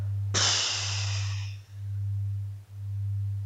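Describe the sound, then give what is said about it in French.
A single breath, with a sharp breathy rush that fades over about a second, sits over a steady low electronic hum that continues throughout. “Inspirez, soufflez.”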